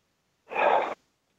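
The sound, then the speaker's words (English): A single deep breath, one short breathy burst heard alone and followed by silence. “Do what I just did. You take a deep breath.”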